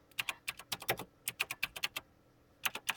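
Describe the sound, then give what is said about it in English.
Fingers type on a computer keyboard: many quick, faint keystrokes clatter in uneven bursts, pausing briefly before a final flurry of taps. “Let me just type that.”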